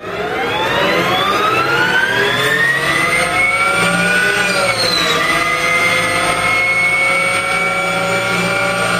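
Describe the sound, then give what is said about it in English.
Electric motor whine of a new electric Harley-Davidson motorcycle starting up: a loud, synthetic-sounding hum of layered tones that climbs in pitch, dips briefly midway, then rises again, with no talk. “Now, when you start the new electric Harley, it sounds like this.”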